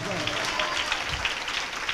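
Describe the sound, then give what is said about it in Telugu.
A crowd at a Christian worship gathering applauds in praise of God. The clapping is steady and fast throughout, with a voice speaking over it. “చప్పట్లతో దేవుని కనపరుద్దాం”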